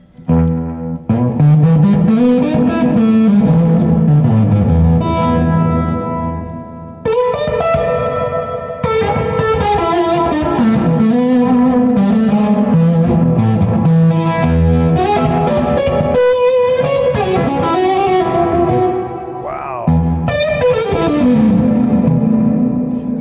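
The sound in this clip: An electric guitar plays through a loud English fuzz pedal with a harsh, sizzling top end and some reverb. It runs through several melodic phrases separated by brief breaks.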